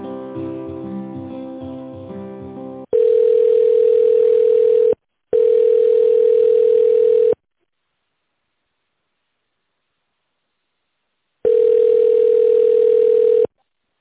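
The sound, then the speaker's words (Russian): Telephone ringback tone while a call is transferred: a short stretch of other tonal sound, then three long, steady, mid-pitched beeps of about two seconds each, separated by silent gaps. “Минуту, пожалуйста, я вас переведу.”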